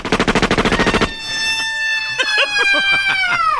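Gunfire from a firing squad volley: roughly a second of rapid, loud, evenly repeated shots like a machine-gun burst, followed by a sustained horn-like tone with quick warbling chirps.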